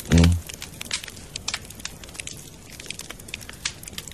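A small outdoor fire crackles near grass and stony ground, with many sharp little pops and snaps scattered over a soft hiss, after a brief louder sound at the very start.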